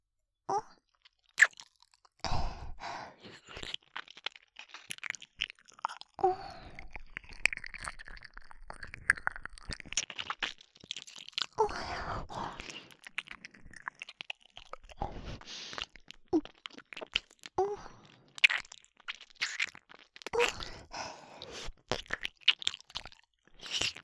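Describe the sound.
Wet ASMR ear-licking mouth sounds come as a long, irregular stream of soft smacks, slurps and crackly clicks, fairly quiet, with no speech.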